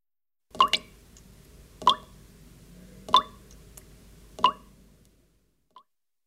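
Water dripping: four crisp, evenly spaced plops about a second apart, each ringing briefly, then a faint fifth drop after a pause, alone against quiet.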